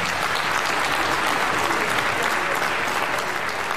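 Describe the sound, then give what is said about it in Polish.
Loud, dense applause from an audience as contest performers leave the stage at a competition concert in Kielce, a continuous roar of many hands clapping at an even level throughout. “Jeszcze raz gromkie brawa na zejście ze sceny.”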